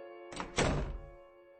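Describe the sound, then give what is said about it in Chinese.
A door being shut: a light knock and then a heavier dull thud as it closes, followed by quiet. “伸手夺过赵百川手里的行李箱，走进了屋内，一句话没说就把门关上了。”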